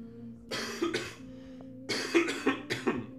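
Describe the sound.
A person clearing their throat in short, rough, gravelly bursts: two close together, then a pause, then a tighter run of four more.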